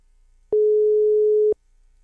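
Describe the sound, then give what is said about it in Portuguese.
A single steady telephone tone sounds while a call is being placed. It is a plain, mid-low hum that lasts about one second, alone over faint background noise. “Pera aí, deixa eu ligar pro Davi aqui, rapidinho.”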